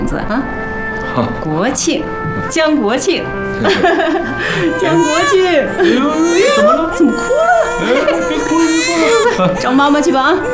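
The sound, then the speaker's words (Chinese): A newborn baby boy cries in loud, wavering wails and whimpers while adults talk over him, the sobbing rising and falling across the whole stretch. “怎么哭了？怎么哭了？找妈妈去吧啊！”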